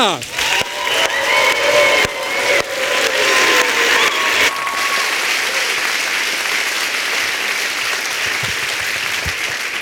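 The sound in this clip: An audience at a poetry slam in Michelbach an der Bilz applauds a performer with dense, steady clapping. Whoops and shouts come early, then the applause carries on evenly.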